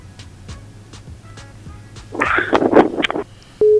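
A telephone tone after a caller drops from a radio call-in show, heard as one short steady beep at the very end, following a brief burst of rough noise.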